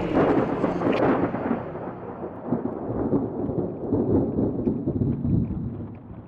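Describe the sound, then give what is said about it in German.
Thunder rolls in a long, heavy rumble that stays loud for several seconds and then slowly eases, with a steady hiss underneath and no talk. “Mächtiges Donnerwetter, was?”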